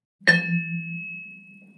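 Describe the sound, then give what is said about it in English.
Vibraphone multiphonic: a single struck metallic ding that splits into a bright high ringing tone and a low humming tone, both sustaining and slowly fading over more than a second. “So I have these examples of one of the vibraphone multiphonics, and that sounds like this.”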